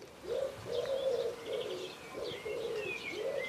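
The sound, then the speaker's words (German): Pigeon cooing: a series of low, soft, rounded coos repeating in a steady rhythm, with faint higher bird chirps scattered above. “Das ist eine Taube, wusstest du das?”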